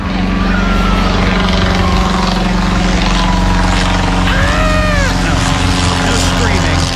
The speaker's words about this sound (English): that's actually the sound of the Wright B replica flyer.